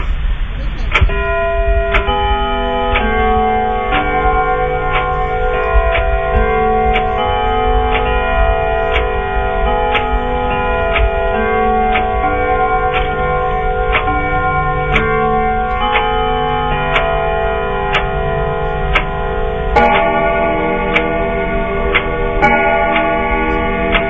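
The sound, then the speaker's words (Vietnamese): A house clock strikes slowly in a steady series of ringing metallic chimes, evenly spaced and sustained over a continuous tonal background. “Đồng hồ trong nhà chậm rãi gõ 11 tiếng.”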